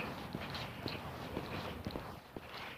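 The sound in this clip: Brisk footsteps of a person walking hard for exercise, with sore shins. The steps fall in a steady, even rhythm of soft thuds over a constant background noise.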